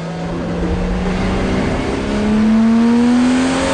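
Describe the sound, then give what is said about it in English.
Race cars accelerate in a street race, their engines a loud, sustained roar whose pitch climbs steadily as the revs build toward the end. “The racers accelerate. Dom takes the lead and glances over his shoulder at his rivals.”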